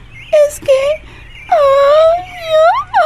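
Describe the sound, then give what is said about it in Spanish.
A girl cries and wails in several long, high, wavering moans separated by short breaks, loud and alone. “¡Tranquilízate! ¡Tranquilízate por un momento! ¡No llores!”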